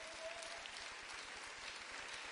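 A church audience applauds during a sermon, a faint, continuous, even wash of many hands clapping that holds steady throughout with no voices on top.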